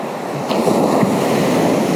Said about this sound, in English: get this picture in front of you of the waves crashing in front of you, one after each other.